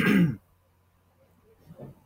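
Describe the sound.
A sharp throat-clearing cough bursts out once at the start, followed by near silence and a faint soft sound near the end.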